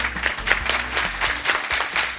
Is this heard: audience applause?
yes